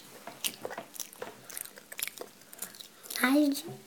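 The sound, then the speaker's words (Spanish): Someone chews and bites artichoke during a meal, making soft crunching and squishy sounds in irregular bursts, with a voice talking over the eating near the end. “¿Y por qué? Porque ¿qué te estás comiendo? La alcachofa.”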